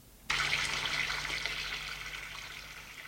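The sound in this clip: Water drains from a bathtub: a faint, steady rushing gush that starts abruptly and continues evenly, easing slightly toward the end.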